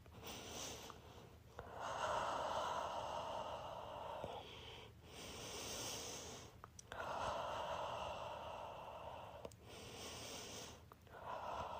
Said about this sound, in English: Take in 5 full deep breaths.